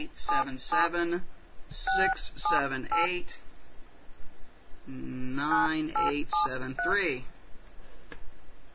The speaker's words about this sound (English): So we're going to dial